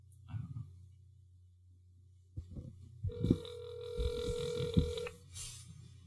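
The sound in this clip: A telephone ringing tone on speakerphone: one steady, buzzy tone lasting about two seconds, heard fairly faintly over a low hum and soft thumping.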